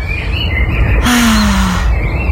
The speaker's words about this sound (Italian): Però vuoi mettere gli uccellini al mattino? Che goduri, ancora meglio del silenzio. Silenzio e uccellino,